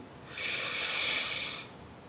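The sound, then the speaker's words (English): A deep breath drawn in during a calming guided meditation: a soft, airy hiss swells gradually, holds for about a second and a half, then fades, heard alone without talk. “as we take a deep breath in”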